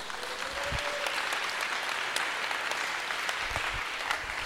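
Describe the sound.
An audience applauds during a French-language prayer service, a steady, dense clatter of clapping hands that continues at an even level throughout.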